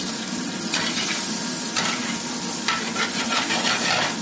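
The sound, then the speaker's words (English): Fresh garlic sizzles in a pan for lamb vindaloo: a steady, bright frying hiss that runs throughout, with a few louder bursts where the pan is stirred. “Now I'll tell you how to make lamb vindaloo. First I'll put the fresh garlic.”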